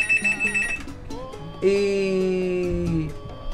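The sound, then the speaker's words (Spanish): A telephone rings for an incoming call. A warbling electronic ring gives way to sustained, steady harmonic tones, fairly loud, with no talk. “Tenemos una llamada.”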